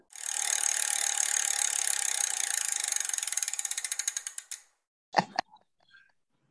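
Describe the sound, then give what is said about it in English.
A trivia prize wheel spinning: rapid ratcheting clicks that gradually slow and space out before stopping, followed by a brief louder knock and a few faint sounds. “So I need to spin the wheel again.”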